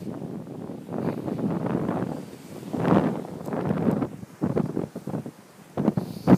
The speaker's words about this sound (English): The wind is getting stronger a little.